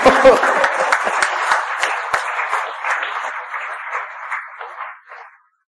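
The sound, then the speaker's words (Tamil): Audience clapping to shake off tiredness during a talk, starting with loud, sharp claps, then thinning out and fading away into silence just before the end. “கைதட்டு இந்த விஷயத்தை விளங்கப்படுத்தியதுக்காகவோ அல்லது உங்களுக்கு விளங்கிவிட்டதற்காகவோ அல்ல, சோர்வு நீக்குவதற்காக என்று அறிக.”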